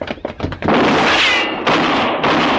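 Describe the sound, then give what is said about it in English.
A gunfighter's gunshot rings out after a few light clicks, swelling into a loud, sustained wash of noise that drops briefly and then surges back. “You shot at that man. You killed him.”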